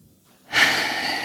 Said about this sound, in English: The process of holding your breath, it's kind of euphoric when I finally get to exhale it out again.